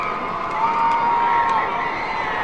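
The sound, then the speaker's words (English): Baseball stadium crowd cheering on a night with a large crowd: a steady, continuous roar of many voices at a moderate level that swells slightly midway. “Beautiful night. Great crowd on hand.”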